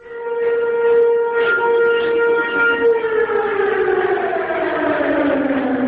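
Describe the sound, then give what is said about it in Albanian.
Civil defense alarm sirens in northern Kosovo sound to call people to a border protest. The loud, sustained wailing tone holds steady, then slowly falls in pitch toward the end. “Që nga orët e hershme të mëngjesit të sotëm, në veriun e Kosovës janë dëgjuar sirenat alarmuese”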